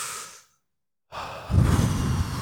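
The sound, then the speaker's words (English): Breathing during a breathing exercise: a short breath trails off into a moment of silence, then a long, deep breath is drawn in, growing fuller and louder as it continues. “Breathe in.”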